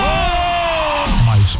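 A person shouting on request on a radio station: one loud, sustained yell with a steady pitch, followed by a brief burst of rougher vocal noise.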